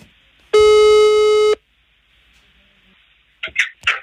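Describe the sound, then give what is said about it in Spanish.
Telephone ringing tone while placing a call: a single steady, buzzing electronic tone lasting about one second, followed by quiet and then a few brief rustling noises. “Listo, estamos por marcarle a nuestra amiga Caro. A ver si contesta.”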